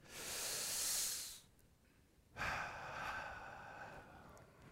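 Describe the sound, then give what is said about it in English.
A slow deep breath, heard as two long, airy breathing sounds separated by a short pause, faint and alone with no speech. “Just take a deep breath.”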